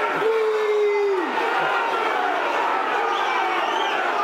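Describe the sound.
Football stadium crowd roaring at a Millwall match, a loud, steady wash of many voices that holds without a clear peak throughout.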